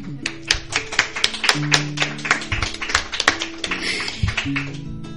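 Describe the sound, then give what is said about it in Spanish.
An audience applauds, many sharp individual claps scattered densely and unevenly. Low sustained tones run underneath. “Vamos a aplaudir”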